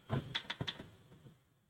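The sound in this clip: Typing on a keyboard gives a few soft, quick key clicks close together near the start, then fades into a faint hush.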